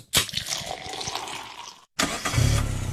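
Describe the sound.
Car engine starting: a starter cranks in rapid, rhythmic bursts, then a brief silence before the engine catches and settles into a loud, steady, rumbling idle.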